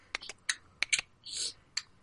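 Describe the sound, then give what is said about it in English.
A person imitates a clicking sound with their mouth, producing a quiet, uneven series of sharp clicks with a brief breathy hiss partway through. “And he started, like, clicking at me. I can't really click, but, like, I've been practicing, but it doesn't really sound that good.”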